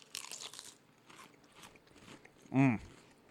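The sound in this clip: Potato chips with a spicy, Old Bay-like seasoning crunched in one loud, crisp bite, preceded by faint rustling and a few soft voices talking.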